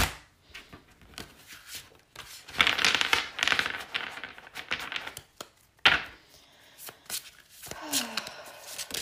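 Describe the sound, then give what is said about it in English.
Reshuffling a deck of cards: papery riffles, rustles and taps come in uneven bursts, with a fuller flurry of shuffling in the middle, quiet and mostly on its own. “Sorry, I just need to, like, reshuffle this deck somehow. I just feel called to do that. Sorry about the noise.”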